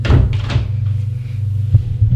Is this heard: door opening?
yes